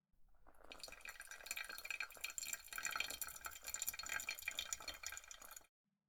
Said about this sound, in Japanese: お湯は少量、豆全体が濡れるように注いで、